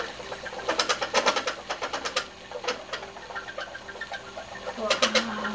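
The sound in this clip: Seated spinning wheel worked by hand to spin washed, combed and dyed wool, giving a fairly faint, rhythmic run of many clattering clicks and knocks with a soft mechanical whir beneath.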